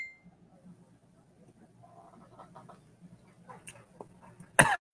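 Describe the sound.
A single sharp cough bursts out near the end, after gin went down the wrong way, following a stretch of soft, low murmuring.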